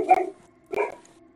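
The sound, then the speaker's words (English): A dog barks twice in the background, two short, faint barks about half a second apart with quiet between them. “Don't mind the dog in the background, he's just a jerk.”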